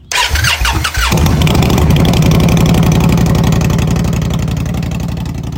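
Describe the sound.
Motorcycle engine cranking for about a second, then catching and settling into a loud, steady rumbling idle as a ride begins.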